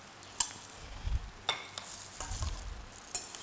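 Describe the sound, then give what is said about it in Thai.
Straw mushrooms are stir-fried in a pan with a faint, soft sizzle. Occasional scrapes and light clicks of a utensil against the pan come and go in an uneven rhythm, and no one speaks. “เขี่ยให้มันแยกออกจากกันนะคะแล้วก็ใส่เห็ดฟางนะคะใส่ลงไปเลย”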